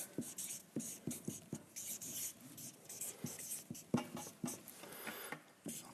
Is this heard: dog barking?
no